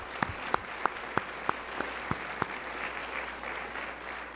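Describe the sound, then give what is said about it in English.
A church audience applauds its fathers on Father's Day: eight crisp, evenly spaced claps ring out first, then a softer, continuous wash of clapping from the crowd carries on. “This is Father's Day. Would you stand, and let's give all of our dads a good hand.”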